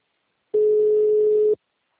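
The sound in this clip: A telephone busy tone after a dropped call: a single steady, low electronic tone lasting about a second, clean and alone in silence.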